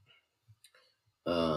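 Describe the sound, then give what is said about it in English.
A few soft, scattered keyboard clicks as someone types, followed by an abrupt, loud tonal sound that cuts in at the end. “Alright, I have to type out one. There it is. I have to type out one.”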